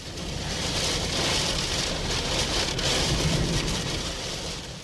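Rain pouring down again as the wind eases, a steady, dense hiss of falling water that holds at an even level throughout.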